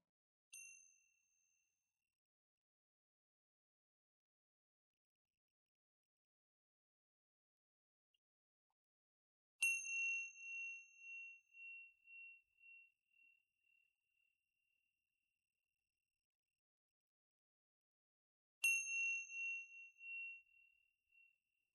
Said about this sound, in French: initier cette pratique par de premiers tintements de clochette que l'on utilise là aussi traditionnellement pour marquer le début et la fin des pratiques formelles.